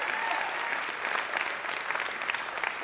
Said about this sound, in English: Let's just review what happened there. I said I haven't been up for a while. You cheered.